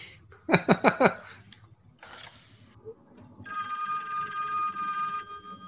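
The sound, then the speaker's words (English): A telephone rings even though it has been unplugged: a single sustained, buzzy electronic ring of nearly two seconds near the end, preceded by a few short, sharp bursts of other sound. “And the phone's ringing even though it's been unplugged.”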